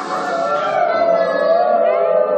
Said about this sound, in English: And heard the wolves howling.